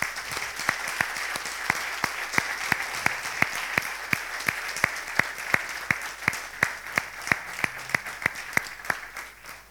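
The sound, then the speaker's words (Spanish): Rhythmic applause from a church audience during a Sunday service, steady unison clapping at a brisk even pace, loud and sustained with sharp regular beats, with no talk over it. “Vamos a dar un aplauso al Señor porque...”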